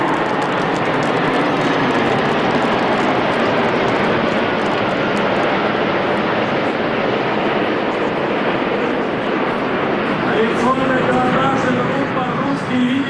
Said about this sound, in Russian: Летчики выполняют проход в вечернем небе города Севастополя с выпущенной механизацией.